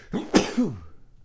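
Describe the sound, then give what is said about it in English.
A single sneeze from a person: a quick intake, a sharp explosive burst, then a short falling voiced tail that fades into quiet. “And now I think I'm going to sneeze.”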